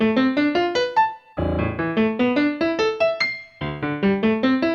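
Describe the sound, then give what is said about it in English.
Piano notes playing a tangent function, quick runs that climb in pitch and then break off and restart low, with two short pauses between the runs. “Did you ever want to hear what a tangent function sounds like on the piano? It sounds like this.”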